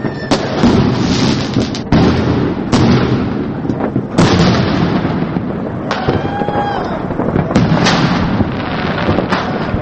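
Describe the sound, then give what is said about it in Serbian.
New Year's midnight fireworks and celebratory gunfire in Kragujevac: loud, dense bangs and crackling bursts overlap without pause, with sharp single reports standing out from the continuous barrage. “Nije izostala ni tradicionalna ponoćna pucnjava i kanonada pirotehničkih sredstava, koja je u pojedinim naseljima trajala do jutros.”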